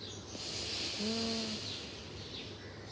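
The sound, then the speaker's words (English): Breath is exhaled through the left nostril during alternate-nostril breathing, a steady, airy nasal hiss with a faint, brief whistling tone near the middle. “Let's start closing the left nostril, inhale from the right. Exhale from the left nostril.”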